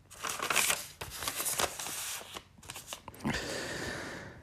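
Rustling and crinkling of a paper letter being folded up and slipped between the pages of a diary: soft, dry crackles in several bursts, ending in a longer steady rustle. No voices.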